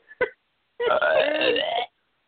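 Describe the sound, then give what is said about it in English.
A loud, drawn-out burp lasting about a second, rough and throaty, preceded by a brief short sound. “it's time, ladies and gentlemen, for the Insidious Belch of the Week.”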